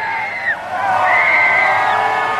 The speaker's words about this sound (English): Fans cheered as now President Donald Trump's motorcade drove toward the U.S. Capitol for his inauguration.